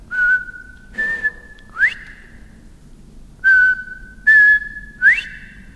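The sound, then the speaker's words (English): A lone male quail's clear whistled call, heard twice: two level notes, then a sharply rising, louder third note. Faint low background noise runs beneath the calls. “it's hard to find quail. You know, to hear that whistle”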